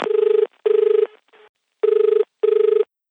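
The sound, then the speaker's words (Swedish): Ringback tone of an outgoing telephone call, sounding as two pairs of loud, buzzing double rings with a steady tone and a short gap within each pair. “så att jag passade på att ringa upp honom en snabbis och höra hur läget var.”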